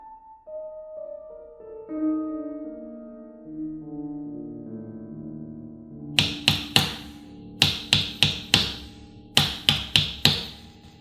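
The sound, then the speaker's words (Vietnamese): Knocking on a door from outside in the middle of the night: loud, sharp raps in three quick bursts, coming after a stretch of soft tonal music. “Tiếng gõ bên ngoài càng dồn dập.”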